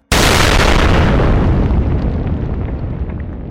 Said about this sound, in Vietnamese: bỗng nghe thấy một tiếng nổ long trời lở đất. Đáy khe núi Gia Nhân sâu vạn trượng đột nhiên xảy ra một vụ nổ dữ dội